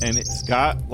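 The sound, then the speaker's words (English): Birds chirping and calling to one another, with thin high calls running faintly beneath a person talking. “do you hear the birds, you start really listening to them.”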